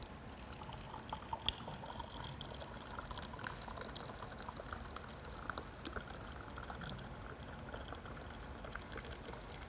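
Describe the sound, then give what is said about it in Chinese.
Liquor poured from a bottle into a cup makes a faint, continuous trickling splash that runs evenly the whole time, with no talking. “然后再来，我把它倒在前面的杯子里面啊，”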